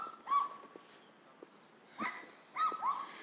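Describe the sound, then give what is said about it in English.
Dogs barking a few times, short faint yips and barks separated by quiet pauses. “And people got their dogs barking. But that's not a big deal to me.”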